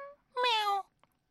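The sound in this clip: A child's voice imitates a cat's meow: one clear, sustained, whiny meow that falls slightly in pitch, heard alone and followed by a faint brief blip.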